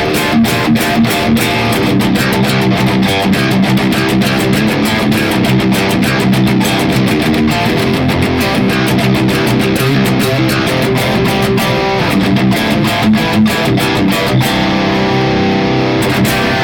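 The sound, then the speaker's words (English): Heavily distorted electric guitar played through a Boss IR-200 impulse response unit, chugging a fast, tight, palm-muted riff with sharp rhythmic attacks at a constant loud level before cutting off near the end. “When we add in our Boss IR 200, it sounds like this.”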